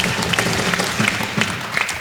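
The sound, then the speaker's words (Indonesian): Dense, steady applause fills the room for three teams after a true-or-false quiz round. The clapping is loud and unbroken from start to finish. “Sekali lagi kita berikan tepuk tangan yang meriah untuk ketiga regu kita.”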